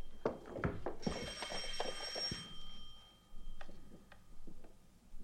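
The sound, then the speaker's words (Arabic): A telephone bell rings in one short, high, metallic burst, with a fainter tone lingering afterward, among quiet scattered clicks and knocks. “من رنة التليفون عرفتك”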